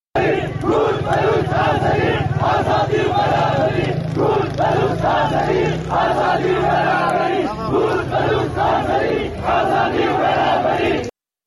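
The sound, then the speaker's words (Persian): A large crowd chants slogans at a street protest during a funeral gathering in Piranshahr, Iran. Many voices shout together in a loud, steady, repeating rhythm that continues throughout. “همچنین مردم در این شهر شعار کرد، بلوچ، آذری، برابری، آزادی سر دادن که میتونیم صدای مردم پیران شهر رو بشنویم.”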